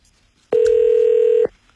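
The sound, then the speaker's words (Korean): A single steady telephone tone sounds as a call is dialed out to a caller: one clear, even beep lasting about a second, loud against near silence. “전화 드려보겠습니다. 전화를 받아주실지. 네. 자, 전화 갑니다.”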